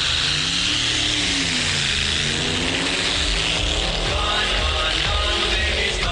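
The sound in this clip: A car engine roars loudly at high revs, a steady, dense mechanical drone with no pauses.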